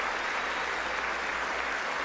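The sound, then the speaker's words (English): An audience claps in a room during a political speech, giving a soft, continuous patter of many hands that stays even for the whole short clip. “The people in that room should all be better educated on this than to clap for that”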